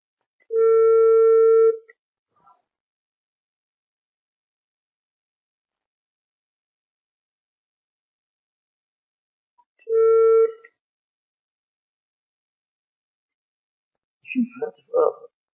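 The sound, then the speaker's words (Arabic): A telephone tone sounds after a call line cuts off: two separate steady, low beeps with harmonics, the first about one and a half seconds long and the second shorter, with long silence between them. A voice speaks briefly at the end. “الخط يقطع مرة واحدة دون سؤال. يقول غير الهاتف.”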